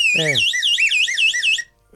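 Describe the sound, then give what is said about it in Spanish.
An electronic alarm blaring a rapid, high-pitched warbling tone for about a second and a half, loud and steady, before cutting off abruptly. “Alarmas.”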